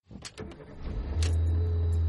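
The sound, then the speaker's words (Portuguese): Ride-hailing car arriving: a low engine hum builds steadily and holds loud, with a few short noises at the start. “Hoje meu carro tá na oficina, o carro de aplicativo acabou de chegar.”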